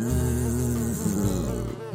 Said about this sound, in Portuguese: Zumbiram as moscas.